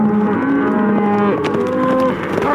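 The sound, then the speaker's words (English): Cattle moo in long, low, droning calls that overlap and run almost without a break, loud throughout, with the pitch shifting as one call gives way to the next. “You aiming to stampede this here cattle?”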